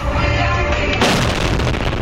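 Heavy missile blast from a Russian strike in Dnipro, Ukraine: a loud, dense, rumbling roar fills the whole clip, with a sharper surge of noise midway.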